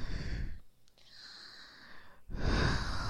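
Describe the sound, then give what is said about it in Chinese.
Deep breathing close to the ear, one long slow exhale followed by a softer pause and a fresh loud, airy inhale, with no talk. “经过我几次在你耳边的深呼吸，”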